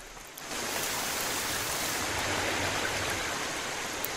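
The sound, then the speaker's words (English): Monsoon rainwater dripping off hanging vegetation in a forest in southern India: a dense, even hiss of falling water that swells in abruptly within the first half second and then holds steady. “Monsoon clouds are building. Rainwater dripping off hanging vegetation in a forest.”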